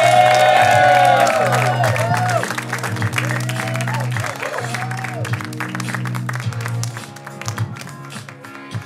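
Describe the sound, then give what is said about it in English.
Audience whoops, cheers and applause for comedians at a Writers Guild fundraiser comedy show: high shrieks and yells open loudly, then clapping and scattered shouts carry on and gradually thin out. “Make some noise right now. Get the energy out. Get the energy out. For Robby Hoffman and Rachel Kaly.”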